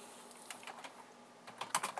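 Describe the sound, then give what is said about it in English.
Typing on a computer keyboard, faint light key clicks that are scattered at first and then bunch into a quicker cluster near the end. “Sorry, I'm just writing up the title here for the show and the RSS feed.”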